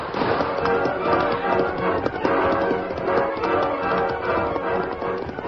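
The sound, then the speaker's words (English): A horse gallops away at a fast pace, its rapid hoofbeats forming a loud, steady, continuous drumming rhythm throughout. “Ranger rode Silver at a fast pace from the arroyo and raced away from the posse”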